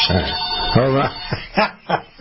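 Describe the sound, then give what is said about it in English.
A telephone ringing during a radio call-in show, heard as a few short tonal bursts mixed in with people talking. “Well, answer the damn thing. Answer it. Maybe it is. Yeah, maybe it is. Hello? We got a caller.”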